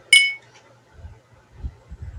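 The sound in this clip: Glasses clinking in a toast: one bright, ringing clink at the start that quickly fades, followed by faint, low rumbling handling sounds.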